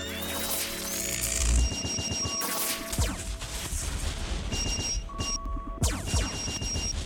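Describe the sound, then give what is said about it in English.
Gunfire and heavy crashes in a radio drama battle as a flying watchbird machine fires back at an attacker. Dense bursts of blasts and booms are threaded with steady electronic tones, with short breaks of quieter sound between volleys. “The watchbird is being attacked. He fires back.”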